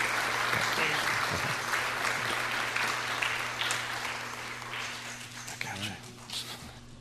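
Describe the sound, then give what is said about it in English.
Applause for young people at a church service, a dense, steady clatter of many clapping hands mixed with voices, loud at first and gradually thinning and fading toward the end. “Give them a hand. Give them a hand. A lot of work.”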